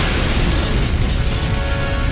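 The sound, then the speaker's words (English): Explosion roar as the Starkiller base cooling device is destroyed in a Star Wars story: a dense, loud, rumbling blast that holds steady throughout with no clear onset or decay. “They felt the planet rock beneath their feet as Poe fired on the weakened cooling device, destroying it once and for all.”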